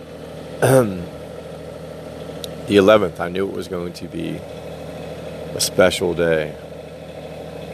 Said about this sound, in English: I apologize if you can hear the refrigerator truck in the background,